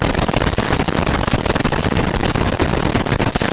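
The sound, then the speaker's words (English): Barkhausen noise from a search coil wrapped around a magnetic sample, played through a loudspeaker: a dense, loud, continuous crackling hiss made of countless tiny pulses, steady throughout with no voices. “And those are usually measured as Barkhausen noise. So you wrap the search coil around your sample, you hook it up to a loudspeaker, and then you hear something like this”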